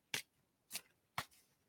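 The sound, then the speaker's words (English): Cards are pulled from a deck one after another: three short, crisp swishing snaps, evenly spaced and fairly quiet, with near silence between them. “Okay, I'm going to pull three cards.”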